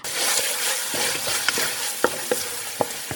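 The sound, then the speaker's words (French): Coarse pepper, coarse salt and fresh thyme are crushed together into a mixture for a gratin, giving a gritty, continuous grinding with a few sharper crunches toward the end. “Je vais écraser le gros poivre, le gros sel et un peu de thym frais. Le thym dans le fond de la cour. Je vais écraser tout ça en même temps.”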